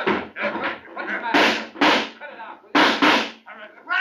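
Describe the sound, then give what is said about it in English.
Gunshots ring out in an old-fashioned western drama shootout: a few sharp, loud bangs with abrupt onsets cut through excited male voices talking. “You saw him pull a gun on me. It was self-defense. I had to shoot.”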